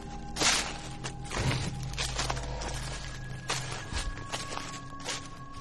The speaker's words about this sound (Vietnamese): Ở bên ngoài đáp lại chúng tôi bằng tiếng bước chân sột soạt, thỉnh thoảng vang lên tiếng thình thịch.